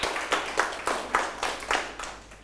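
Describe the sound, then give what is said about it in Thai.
Students in a classroom clap for a classmate: a faint group clap in steady, evenly spaced bursts, roughly in unison, fading slightly toward the end. “เอาปรบมือเพื่อนหน่อยครับ”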